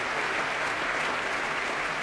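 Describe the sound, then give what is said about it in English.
Applause from members of a symphony orchestra as a pianist threads his way past them. The clapping is dense and steady for the whole clip, with no voices. “And the members of the BBC Symphony Orchestra applauding him as he threads his way past.”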